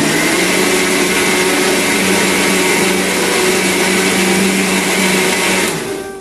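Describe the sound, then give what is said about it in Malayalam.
An electric mixer grinds coconut, curry leaves, shallots, chillies, coriander powder and fennel into a fine paste, giving a loud, continuous high whir that holds steady before winding down at the very end. “ഇനി നമുക്ക് ഈ ഒരു തേങ്ങയിലേക്ക് കുറച്ച് കറിവേപ്പിലയും രണ്ട് മൂന്ന് ചുവന്നുള്ളിയും കുറച്ച് കാന്താരിമുളകും, കാന്താരിമുളക് ഇല്ലെങ്കിൽ പച്ചമുളക് ആയാലും ചേർത്താൽ മതി കേട്ടോ. കുറച്ച് മല്ലിപ്പൊടിയും കുറച്ച് പെരിഞ്ചീരകവും ചേർത്ത് നല്ല മഷി പോലെ അരച്ചെടുക്കാം കേട്ടോ.”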